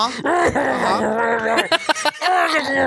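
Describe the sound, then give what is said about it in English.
A voice imitates someone dying from smoke inhalation: a strained, groaning, sustained vocal tone that breaks into a few choking, sputtering gaps before dragging on again. “That, ladies and gentlemen, the sounds of dying from smoke inhalation.”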